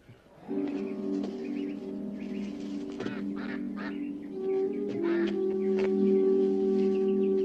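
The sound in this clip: A duck quacking: a series of nasal quacks over a steady humming tonal background, growing a little louder toward the end.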